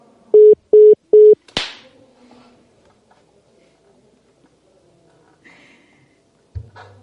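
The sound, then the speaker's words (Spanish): A telephone gives three short, even electronic beeps at one pitch while someone redials a call that keeps cutting out. A sharp click follows, then quieter faint rustles and a brief low thump at the end. “Estoy intentando volver a marcar, pero se corta y se corta”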